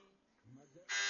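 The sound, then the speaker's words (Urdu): A quiz show buzzer is rung by contestants and sounds at the very end as one loud, harsh electric buzz, after a short stretch of faint talk. “بیل بجا دی اوکاڑا والوں نے with in a second”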